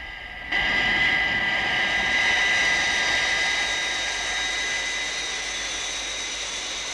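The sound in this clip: Jet aircraft engines roaring in level flight, just after a high-speed climb. The sound starts abruptly and settles into a loud, steady roar with a high whine, easing slightly over several seconds and heard alone.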